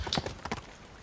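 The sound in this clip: Horse hooves clip-clop as the horse is ridden in a video game, a few quick, hollow hoof strikes in an uneven rhythm. They are fairly faint over a steady low background.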